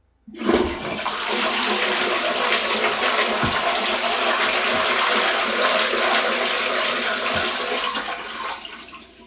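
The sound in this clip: A toilet flush starts with a sudden surge, then a loud, sustained roar of rushing water lasts about eight seconds before tapering off toward the end.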